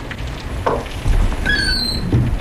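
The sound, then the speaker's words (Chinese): A door is pushed open, with a few short high squeaks and soft low thumps spread across a couple of seconds over faint background noise. “钱之江推门走了进来。”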